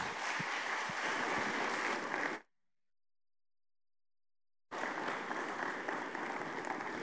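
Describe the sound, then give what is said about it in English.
Audience applause welcoming a speaker, a dense, sustained clapping that cuts out into silence for about two seconds, then resumes just as full. “So let's give a rousing mission point welcome to Dr. Tiberius Rata.”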